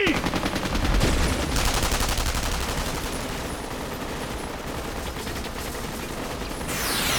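Rapid gunfire rattles almost without pause for several seconds, a loud, dense stream of overlapping shots.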